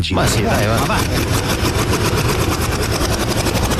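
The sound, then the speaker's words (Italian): A prize wheel spinning on a TV show gives rapid, evenly spaced clicking, many ticks running continuously and loudly for the whole stretch over a dense background. “Allora, giriamo la ruota lo stesso, posso girarla?”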